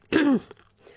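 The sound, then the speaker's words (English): A single short throat clearing, one brief rough burst of moderate loudness followed by near silence and a faint trailing breath. “Oh, pardon me, I've just got something in my throat.”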